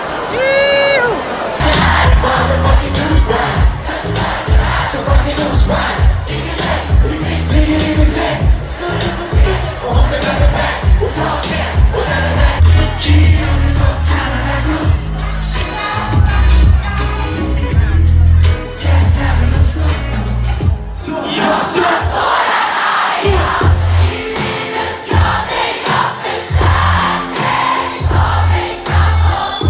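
A large crowd cheers and shouts at the Gröna Lund main stage before a Tjuvjakt concert. The noise is sustained and loud throughout, with a steady pulsing rhythm and a short dip near the end.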